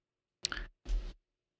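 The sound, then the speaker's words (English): Books being shuffled and set down on a table, heard as two short rustling thumps in quick succession, each lasting about a third of a second, with no talking. “I'm just shuffling the books now. First I put Less Than Zero on top, signifying that like I wanted to read that, but then I'm like, no, that doesn't make sense. So I put Grapes of Wrath on top, signifying nothing.”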